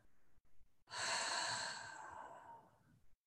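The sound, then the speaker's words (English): A long, loud breathy exhale during a guided breathing exercise, lasting about two seconds and fading away, with a few faint short breaths before it. “So whenever it feels good for you, meet me on an exhale here.”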